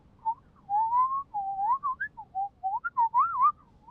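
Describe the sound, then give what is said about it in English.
A person whistles in imitation of a bird quietly singing to itself: a soft, warbly string of many short, wavering notes in a clear mid-high pitch, alone with no talk. “You watch a bird doing his thing. And sometimes he just sits there and sings quietly to himself, which is very sweet. It's like a soft, warbly kind of song, like,”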